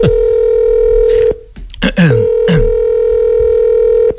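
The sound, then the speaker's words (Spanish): Telephone dial tone, heard while a call is being placed: a steady, buzzing tone that breaks off briefly, followed by a few short sweeping blips, then the steady tone resumes to the end. “Voy a llamar FIFA ahora mismo.”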